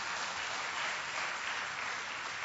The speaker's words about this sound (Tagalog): Palakpakan natin ang Panginoong Diyos na buhay.